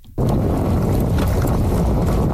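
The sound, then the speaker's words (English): A remote-controlled vehicle races around a large dirt track in Fredericton, giving a loud, continuous whirring roar that starts abruptly and stays level, with some wind buffeting. “A team of engineers watches closely as the remote-controlled vehicle races around a large dirt track in Fredericton.”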